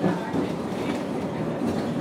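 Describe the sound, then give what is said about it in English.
A line F tram runs along its rails with a steady, moderately loud rumbling roar and a faint rhythmic wheel clatter throughout, with no voices. “So we're on line F tram.”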